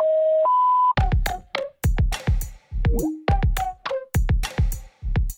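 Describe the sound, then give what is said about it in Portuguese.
A voicemail beep tone plays at the start: two steady tones, the first lower and the second higher, together lasting under a second. A run of short, sharp, loud bursts with brief gaps follows. “Sua mensagem está sendo encaminhada para a caixa de mensagens e estará sujeita a cobranças após o sinal.”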